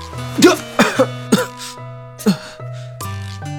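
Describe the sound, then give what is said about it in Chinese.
Several harsh, abrupt coughs from a person coughing up a mouthful of water, set against a steady sustained tonal backdrop, with short gaps between the bursts and a longer pause before the last one. “赵熙突然咳嗽了一声，咳出了一口水”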